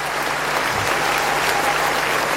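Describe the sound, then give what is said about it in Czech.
Dense, steady applause from an audience greeting a performer at a show in Bratislava, a continuous wash of clapping that holds at an even level throughout. “Díky za takové skvělé přivítání, za takový aplaus.”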